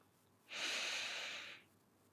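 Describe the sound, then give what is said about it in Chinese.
A single slow, deep inhale through the nose, a soft airy hiss lasting about a second, heard alone and quiet. “现在，闭上双眼，轻轻的用鼻子，慢慢的、深深的吸气，数到四。”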